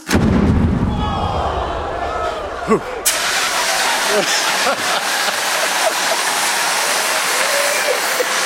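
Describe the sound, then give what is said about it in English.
A hydrogen-filled balloon explodes with a loud boom at the very start. A sustained, noisy rumbling tail follows, and a second sharp burst comes about three seconds later. “filled with just hydrogen. Let's go ahead and explode this one. 5, 4, 3, 2, 1.”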